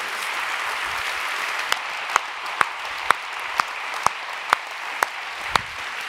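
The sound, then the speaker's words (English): Sustained applause from a church audience, a steady wash of clapping with sharper individual claps popping out in a fairly regular rhythm. “Why don't you put your hands together one more time and thank them.”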